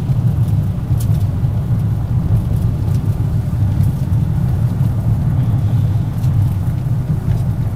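A car drives on a slick road and changes lanes. Steady rumbling road and engine noise holds throughout at a constant level.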